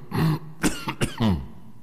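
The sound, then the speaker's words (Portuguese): A person coughing: a few rough, loud coughs and throat-clearing bursts in quick succession, with no talk around them. “Não gostei dessa tosse sua aí, viu? Essa tosse sua.”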